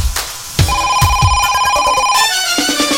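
A telephone rings with an incoming call on a radio station's phone line: a steady electronic ringing tone that holds for about a second and a half, with a few sharp clicks before it and softer tones after it.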